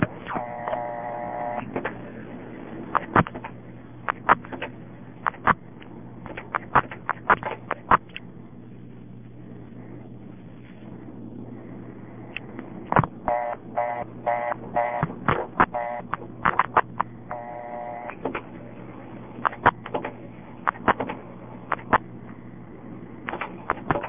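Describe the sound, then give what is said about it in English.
Telephone number 955-111 dialed out over a switching line: bursts of tones and sharp clicks come in clusters, with a quieter gap in the middle, all over a steady low hum and a narrow, phone-like band. “Just for fun, let me try a 955 number and see what it does when I time out. In other words, I'll dial 955-111, then wait, see what it does.”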